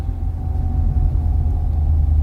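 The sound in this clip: A car engine rumbles in a low, even drone as the vehicle drives off, steady throughout with no voices.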